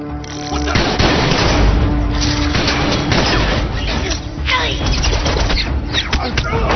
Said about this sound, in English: Shots fired in the underdeck. Repeat, shots fired.